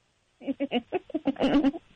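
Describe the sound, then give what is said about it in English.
A voice imitates a dying horse with a rapid string of short, nasal, bleating cries that run into a longer, louder wavering wail before trailing off. “You can't mention a sound like a dying horse and then not try it right now. Okay, if you must. Oh, my God. Wait, is there a dying horse over there?”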